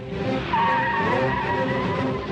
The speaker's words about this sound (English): Herbie does a U-turn. He drives alongside the plane.